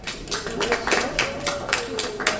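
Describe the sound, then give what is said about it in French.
An audience applauds a player who has just finished a logic and strategy game with a record score. The clapping is dense and uneven, with steady noise and a voice underneath. “Une bonne main d'applaudissements pour Patrick.”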